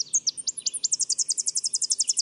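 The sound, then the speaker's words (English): Tennessee warbler calling: a long series of high, thin, staccato notes repeated rapidly and evenly, many in a row with no other sound around them. “Tennessee warblers do most of their nectar drinking in tropical forests on their wintering grounds.”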